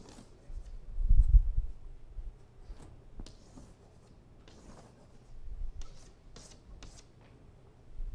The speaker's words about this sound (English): So, let me draw arrows up here, please, on this.